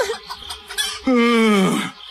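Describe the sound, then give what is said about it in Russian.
A hen clucks once in a single drawn-out, strongly harmonic call that sinks slightly in pitch, after a few softer, scattered sounds. “Сестренка Ида указала на курицу.”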